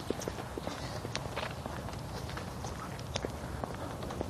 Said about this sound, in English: This is my neighbor out for her walk this morning.